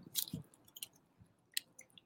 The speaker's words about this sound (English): I'm going to try the sauerkraut now.